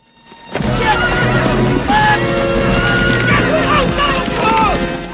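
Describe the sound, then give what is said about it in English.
Horses neigh and whinny as riders bring them to a halt. Several rising and falling whinny calls stand out over a dense, loud bed of hoof clatter that holds steady throughout. “Their horses come to a stop.”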